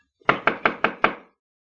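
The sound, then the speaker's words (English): Five firm knocks on a cabin door, evenly spaced in quick succession. Each is a sharp, hollow rap with a short decay, and silence follows. “The door of the cabin is open, Chico. There must be someone here. Yeah, we will knock before we go in.”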